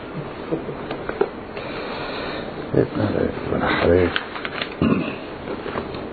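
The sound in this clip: Paper rustles as sheets are laid down, giving soft crinkling bursts mixed with a man's speech.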